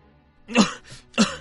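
A man coughs after choking on naan bread, two sharp throaty coughs with a softer rasp between them.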